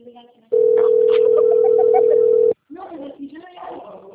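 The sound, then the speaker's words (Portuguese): A telephone ringback tone sounds while a call is being placed: one steady, loud tone lasting about two seconds, with people talking before and after it. “Tá chamando aqui.”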